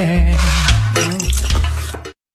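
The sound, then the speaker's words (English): Pots and utensils clattering while lunch is cooked. The sound is a busy, loud jumble of clanks, scrapes and stirring that stops abruptly. “Cooking. Gonna cook me some lunch,”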